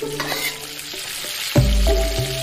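Bamboo shoots and dried chilies stir-fry in a wok of hot oil, a crackling sizzle that jumps suddenly louder partway through and keeps frying at full strength.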